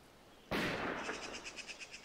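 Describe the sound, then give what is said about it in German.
Gunfire: a single sharp, loud bang with a short decaying rumble, followed by a faint, rapidly pulsing high tone. “In Klingsel schießen sie wieder.”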